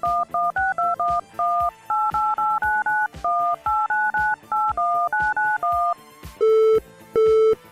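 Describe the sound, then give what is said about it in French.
Telephone touch-tone dialing while calling a backup line: many quick two-tone beeps in a brisk, uneven rhythm, then two longer, lower steady tones. “Oh, tentons de joindre Simon sur sa ligne de secours.”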